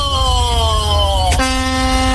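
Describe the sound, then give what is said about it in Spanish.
A truck's air horn honks in one loud, continuous blare. Its buzzy, harmonic-rich tone slides gradually lower in pitch, then after a brief break it settles into a steady held note. “Mamita querida, esa bocina.”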